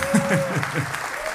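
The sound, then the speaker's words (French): Brief applause from a concert audience, thin scattered clapping at moderate volume with a voice speaking over it and a steady tone held beneath. “Allez, applaudissez, hein.”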